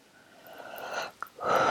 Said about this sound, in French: je prends 2-3 grandes respirations.